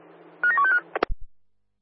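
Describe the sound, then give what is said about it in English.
Telephone dialing tones: a quick run of a few steady dual-pitched beeps, followed by a few short clicks and a low thump, then silence. “Dialing now.”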